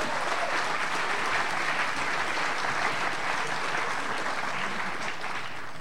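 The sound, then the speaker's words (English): Audience applause welcoming guests at a Sydney University gathering: dense, steady clapping from a large crowd that stays loud and even throughout, with no voices standing out. “Why don't we give them a big Sydney University welcome?”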